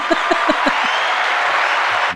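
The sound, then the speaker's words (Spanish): Neighbourhood audience applause in Carabanchel during an interview with an actress, a loud, dense burst of clapping that holds steady for about two seconds before cutting off abruptly. “Después de los aplausos del barrio para elegirle.”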